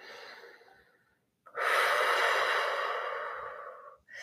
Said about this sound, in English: And just breathe, breathe, breathe.